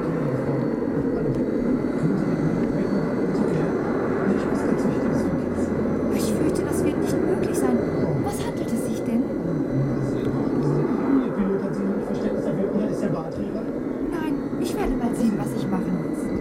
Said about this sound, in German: hat gerade die erste Runde gegen die Schwerkraft gewonnen und hebt von der Rollbahn ab